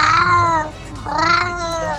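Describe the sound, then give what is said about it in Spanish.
Two clear, high-pitched meows from a kitten, each a drawn-out call with a short gap between them, loud and heard alone. “Ay, ve, ahí anda un gatito. Ahí anda un gatito.”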